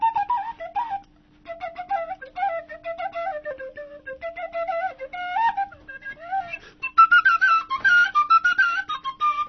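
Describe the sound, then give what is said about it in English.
An Irish penny whistle plays a lively tune alone, a clear, high melody of many quick notes in flowing phrases that jumps to a higher register near the end. “And the Irish penny whistles usually play stuff like,”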